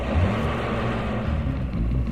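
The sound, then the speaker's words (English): A steady, low engine rumble and road noise come from a long flatbed truck piled high with silver tanks as it approaches on a road. The dense roar holds at a fairly even loudness throughout, with no voices. “Is that him? It's a long flatbed piled high with silver tanks. Yeah, that's him. Get out to the road and flag him down.”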